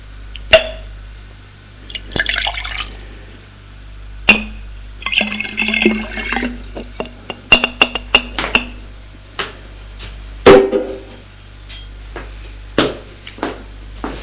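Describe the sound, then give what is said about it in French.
Water splashing and pouring as a glass is emptied and rinsed in a bathroom, broken by many sharp glassy clinks and taps, with intermittent bursts of running liquid and quiet pauses between them. “Vide le verre. Le rince.”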